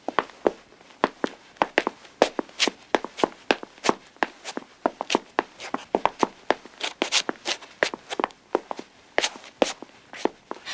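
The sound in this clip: Footsteps of several people walking upstairs, as they follow someone to an upper floor: many sharp, clear steps in an uneven, overlapping rhythm that runs steadily through the whole clip, with no talking.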